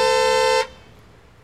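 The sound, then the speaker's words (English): A car horn honks once in a single steady, bright, loud blast lasting just over half a second, then cuts off into quiet. “Stop! A car!”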